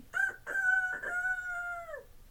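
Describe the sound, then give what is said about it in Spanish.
A rooster crows once, a loud drawn-out cock-a-doodle-doo that opens with a few short choppy bursts, then holds a long steady note that drops away at the end, alone with no other sound. “cantó el gallo.”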